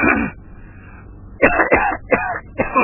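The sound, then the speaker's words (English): Harsh, phlegmy coughing and throat clearing from congestion. An opening burst is followed by a brief quiet gap, then a run of several loud, rough coughs. “God, I am congested. What on earth is this? It seems like every time I eat, I get this phlegm thing up to the very back of my throat, and I'm constantly having to cough it up.”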